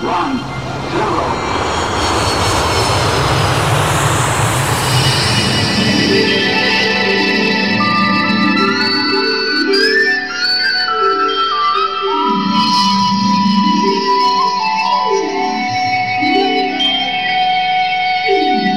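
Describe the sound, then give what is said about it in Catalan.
Engine sound effect of a magic ship taking off: a loud, broad rushing roar fills the first few seconds, then gives way to echoing, sweeping tonal effects and pulsing synthetic patterns that continue steadily to the end. “Som a punt d'enlairar-nos amb la nau l'Afell Llunars.”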